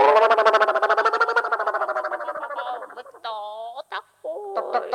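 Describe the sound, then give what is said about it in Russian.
A stork call: a loud, rapid, pulsing croak with a buzzy, rattling tone that slowly fades. It is followed by a few short, broken vocal sounds. “Кто вы такой? Это аист.”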